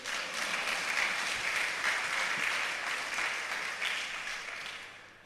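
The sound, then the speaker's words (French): Audience applause: dense, continuous clapping at a fairly faint, even level that tapers off toward the end. “Alors, oui, oui, vous pouvez acclamer, ça va.”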